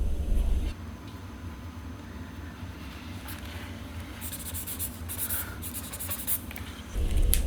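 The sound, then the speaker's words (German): A pen scratches across paper while someone draws a ski jump. The quiet, continuous strokes turn into brisker scratching bursts toward the end, over a low steady rumble. “Aber weißt du, was ich immer mache? Ich zeichne nämlich immer.”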